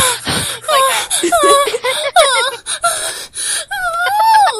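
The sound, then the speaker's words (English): A person deliberately breathes hard into a microphone, performing rapid, loud gasps mixed with voiced moans and whimpers whose pitch swings up and down in an uneven rhythm. “start breathing really hard into the microphone right now. No, it's like, oh, I could demonstrate.”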